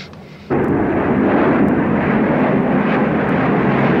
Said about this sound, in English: The plane circles over New York.